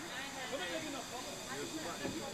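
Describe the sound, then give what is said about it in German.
A museum train of old Reichsbahn Donnerbüchsen wooden carriages rolls along the Dreiseenbahn branch line, giving off a steady broad hiss and rumble while a voice talks over it. “Die Interessengemeinschaft Dreiseenbahn hat diesen Zug zusammengestellt mit sogenannten Donnerbüchsen. Das sind alte Reichsbahnwagen, die vor 50 Jahren typisch waren auf solchen Nebenstrecken.”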